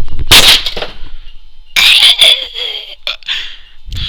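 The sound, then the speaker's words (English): Gunshots go off in a few loud, sharp bursts separated by pauses, with a sustained high ringing tone between the later blasts. “Okay, I'll shoot it!”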